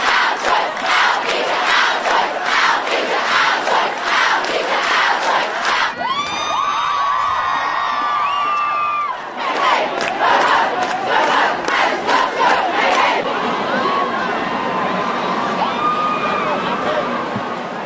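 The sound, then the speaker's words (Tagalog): A large crowd of students shouting at a climate change protest in Australia: loud, continuous massed voices with rhythmic chanting and cheering throughout, surging and overlapping without pause. “Sa Australia, napagod na ang mga estudyante sa kanilang paghihintay sa mga politiko upang kumilos ang mga ito sa pagbabago ng klima.”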